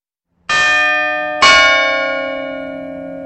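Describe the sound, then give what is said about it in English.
Two strikes of a large bell, rung by the striking mechanism of a clock, sound about a second apart. Each strike has a bright attack and rich metallic overtones, and the second rings over the first as both slowly fade. “Then there's an extra part which rings the bells, and that's kind of an added extra.”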